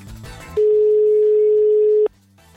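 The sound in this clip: A single steady ringback tone of an outgoing telephone call to a school during an election day in Asturias, Spain: one loud, even, mid-pitched tone lasting about a second and a half, then it cuts off.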